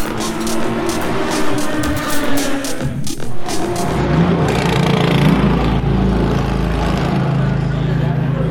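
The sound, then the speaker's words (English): A Corvette race car pulls out of the pit lane during the Le Mans 24 Hours. A low, loud engine drone builds from midway and holds steady over a rough background roar. “That's the sound of a Corvette leaving the pit lane.”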